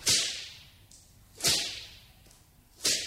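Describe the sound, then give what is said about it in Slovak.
A whip whistles through the air and cracks three times at fairly even intervals. Each lash is sharp and loud, and its hiss trails off quickly before the next one. “A vzduchom často bič zasviští.”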